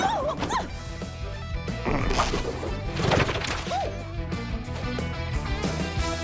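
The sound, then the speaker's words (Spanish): A sharp smash-like hit for a cassowary kick in an animated fantasy film, a brief thwack buried in a dense bed of music and busy effects. “¡Patada casuaria!”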